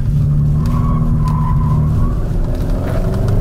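A car accelerating hard and then braking, with a mechanical limited-slip differential and ESP set to Sport: a loud, steady low engine drone whose pitch shifts slightly as it pulls, with no voices over it.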